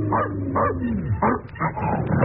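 A dog yaps and whimpers in a few sharp, high bursts over a low, murky background.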